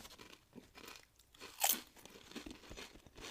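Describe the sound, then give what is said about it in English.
Crunching of an original Lay's potato chip: one sharp, loud crisp bite near the middle, surrounded by a few softer chewing crunches, with no talk. “They're delicious. Yeah. I'll say it every time. Can't fuck up a Lay's. You want another one?”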